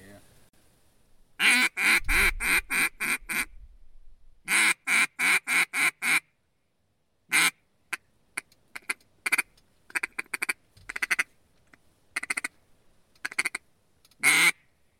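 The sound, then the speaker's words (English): Ducks quack in loud, rapid bursts: two long runs of repeated calls come first, then scattered shorter quacks broken by brief pauses. “I feel like ducks are, like, the least predictable.”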